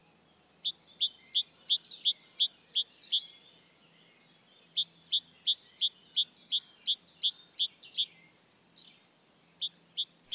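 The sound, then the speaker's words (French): Great tit song: rapid runs of high, clear, repeated two-note phrases in three bursts separated by brief pauses, heard alone with no talk. “La mésange charbonnière vocalise toute l'année une série de notes mélodieuses très reconnaissables.”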